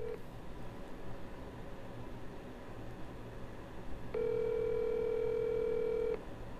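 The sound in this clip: A telephone call being placed: a brief tone at the start, then a steady electronic tone that holds for about two seconds over a low background hum.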